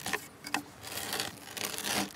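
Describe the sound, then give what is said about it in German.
Timber being drilled through for wooden pegs that will join a sill and brace in traditional woodworking: faint, irregular scraping and grinding bursts of the bit in the wood. “Er bohrt das erste von zwei Löchern für die Nägel, die später Schwelle und Strebe zusammenhalten soll.”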